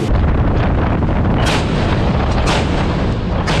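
Naval ship's main gun firing a four-round salvo during live-fire training in complex sea conditions: a loud, continuous rumbling roar broken by several sharp, bright blasts in fairly even succession.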